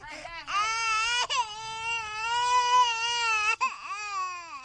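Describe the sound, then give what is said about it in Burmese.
A small child in a village cries in a long, high, wavering wail, broken twice by brief catches of breath before the crying resumes. “ကံကုန်းမျိုးနဲ့ကံကလေးကျေးရွာအုပ်စုကကျေးရွာတစ်ခုမှာတော့ငိုနေတဲ့ကလေးငယ်ကိုသူ့အမေကအတင်းဆွဲခေါ်နေပါတယ်။”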